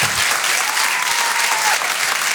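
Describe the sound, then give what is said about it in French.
Audience applause fills a comedy club in a Paris theatre during a live stand-up show, a dense, loud wash of many hands clapping that holds steady throughout. “Faites du bruit, s'il vous plaît, pour Sophie Loustalo”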